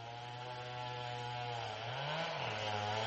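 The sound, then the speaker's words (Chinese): A chainsaw felling trees in a forest drones in a steady, faint, buzzing whine, its pitch rising briefly as the engine revs, then settling back down. “Richard 在森林里听到伐木的链锯声音， 他就朝着链锯声音的方向走去，打算探出个究竟”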